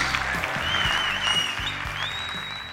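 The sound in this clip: An audience applauds as a three-person panel is welcomed to the stage, a dense, steady wash of clapping that holds at an even level throughout.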